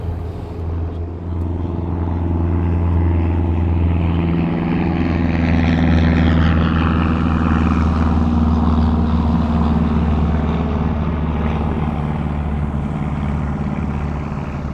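Steady droning of a seaplane's engine and propeller. It is a loud, continuous low hum with strong tonal bands that holds evenly throughout, with no voices.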